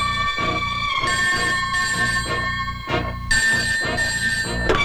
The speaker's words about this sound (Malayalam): ദാ ഫോൺ അടിക്കുന്നു അതെടുക്കൂ സാർ